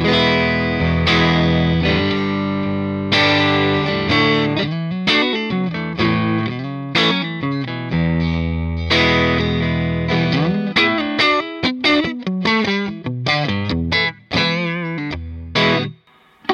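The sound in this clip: Electric guitar played on the neck pickup through an Alnico speaker, ringing out a run of chords and single notes, many picked attacks over sustained, harmonically rich tones with no voices.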